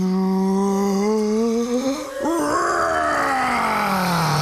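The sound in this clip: A voice imitates a dragon breathing fire: a drawn-out, groaning vocal tone that swells into a rough, breathy roar with a falling pitch toward the end. It is loud and steady throughout.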